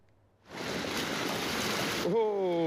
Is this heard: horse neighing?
no